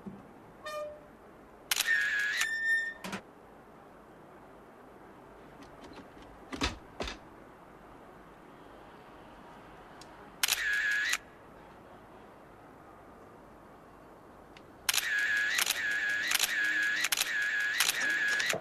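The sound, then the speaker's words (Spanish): A camera shutter fires in rapid bursts as photos are taken from inside a car, with several short runs of fast clicks and a couple of single clicks separated by quiet stretches, the final burst lasting longest. “Desde su coche, David saca fotos de Víctor y Clara, ambos semidesnudos, hasta que cierran las contraventanas metálicas.”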